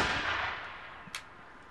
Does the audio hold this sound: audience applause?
no